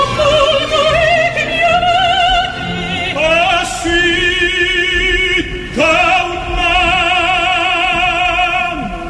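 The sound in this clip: Operatic singing from a love declaration scene: a sustained vibrato voice soars over a full orchestra, holding long notes with a few swelling phrases and brief breaks, loud throughout.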